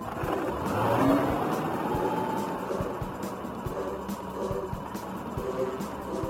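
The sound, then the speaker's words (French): A small electric cart drives off, a steady broad whirring rumble with a low hum underneath that swells slightly early on and then holds at an even, moderate level. “Ah, voici le directeur et sa voiturette. Montez, mon cher, montez!”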